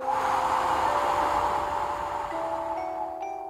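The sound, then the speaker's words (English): A long, deep breath is blown out slowly as a calming exercise: a steady, airy whoosh that holds for several seconds without a break and fades slightly toward the end. “Take your very deepest breath in. Then blow out the longest breath you can.”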